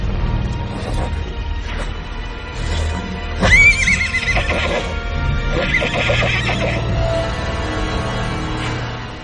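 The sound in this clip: A black horse whinnies loudly once near the middle, with hooves clip-clopping and a steady low background sound running throughout.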